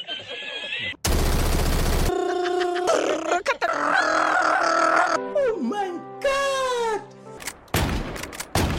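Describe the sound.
A voice imitates gunfire from the video game Delta Force, making a series of bursty, noisy blasts and buzzing, pitched vocal shots separated by brief gaps, loud and abrupt.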